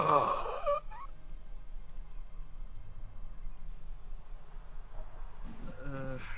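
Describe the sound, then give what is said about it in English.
A game master voices a groan for a figure hunched over on the ground in a role-playing game. A brief, low vocal moan sounds at the start and then gives way to near silence. “You see someone like kind of hunched over on the ground, and they let out this groan.”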